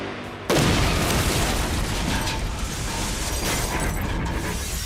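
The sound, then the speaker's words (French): A bomb explosion against a tower wall bursts in abruptly, then gives way to a loud, dense, sustained roar that holds steady to the end. “L'impact de l'explosion sur le mur de la tour fut colossal. Tout ce qu'il y avait autour fut détruit.”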